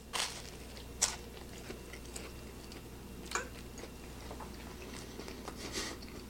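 Biting and chewing a waffle scone during a taste test gives faint, soft crunches, with a few sharper bites standing out among quieter chewing sounds and no talk.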